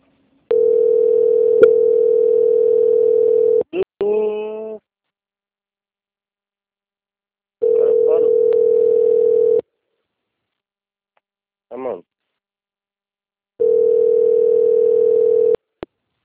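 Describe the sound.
A telephone tone plays while a call is being transferred: three long, steady, mid-pitched tone bursts separated by pauses, with brief voice fragments in the gaps.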